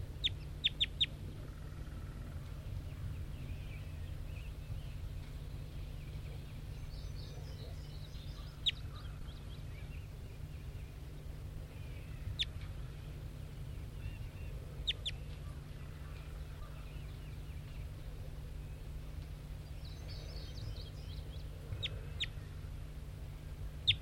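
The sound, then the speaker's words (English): Faint bird calls, a few brief chirps and clucking notes scattered sparsely over a steady low hum, with no voices. “Recording bird 5-9.”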